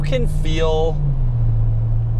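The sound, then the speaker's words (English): Steady low engine and road drone inside a car being driven on the road, holding constant throughout, with a brief voice near the start. “So, I'm driving now”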